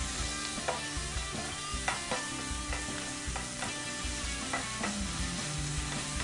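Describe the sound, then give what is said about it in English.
Bacon sizzles in a pan as it crisps, giving a dense, steady crackle and hiss scattered with small pops and clicks, with no voices. “I like bacon. Okay. We just want that to crisp up.”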